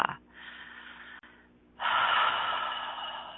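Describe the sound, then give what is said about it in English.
Deep breathing during a guided relaxation exercise: a softer, airy breath followed by a louder, longer rushing breath, with no talking. “take a couple of deep breaths like three deep breaths”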